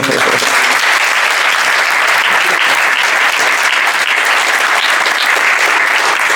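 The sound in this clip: An audience at a spiritual talk breaks into a big round of applause, loud, dense clapping that holds constant and unbroken throughout.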